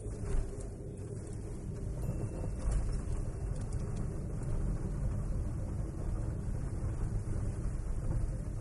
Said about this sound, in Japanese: 今駐車場に入れたわけです、はい、駐車場に車を入れました